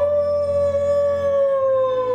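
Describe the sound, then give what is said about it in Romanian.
A creature howls like a wolf in one long, sustained wail at a steady pitch, with rich overtones lasting more than two seconds. “Apoi urlă ca lupul.”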